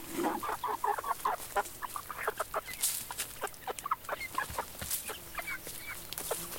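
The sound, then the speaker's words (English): Local chickens in a small-town soundscape cluck in a busy, uneven chatter of many short calls, fairly quiet over steady background noise. “Or even local chickens as part of a small town soundscape.”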